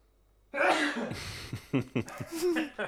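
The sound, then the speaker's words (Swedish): A sneeze bursts out suddenly and fairly loud, followed by a few short, breathy vocal sounds. “ursäkta mig, jag måste nysa.”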